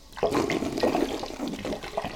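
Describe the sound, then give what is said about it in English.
Sparkling water pours into a bowl with a steady rush of splashing and fizzing liquid that fills the whole clip, moderately loud, with no voices. “we're going to start with sparkling water.”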